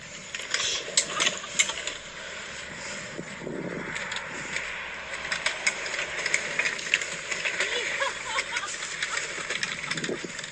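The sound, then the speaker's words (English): A roller coaster ride produces a continuous rumbling, rattling roar with a broad windy hiss, holding a fairly even loudness throughout with small bursts of clatter. “towards the very end, there's a little video of, I believe, the nephew riding the roller coaster. Listen here.”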